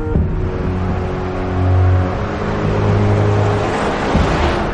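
A car engine drones steadily on a motorway at night. The low hum rises and falls slightly in pitch and plays alone, with no voices.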